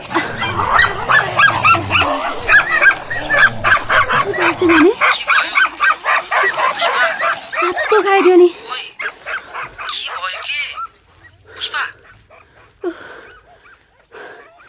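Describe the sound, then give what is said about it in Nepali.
Dogs fighting, with many sharp, loud barks and yelps in a rapid, overlapping burst that thins out into scattered yelps toward the end. “कुकुरहरू झगडा गरेर रहेछ, कस्तो तर्स्यो भने।”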